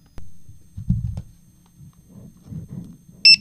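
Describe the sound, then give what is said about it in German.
A talking product scanner gives a single short, high electronic beep as a product is scanned, sounding loud and clean after a few soft handling thumps. “Und wenn wir jetzt dieses Produkt nochmal scannen.”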